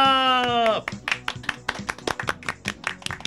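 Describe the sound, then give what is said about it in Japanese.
Scattered applause from a studio audience: many sharp, irregular hand claps of varying loudness, following a brief speaking voice at the start. “いや、素敵な拍手ありがとうございます。”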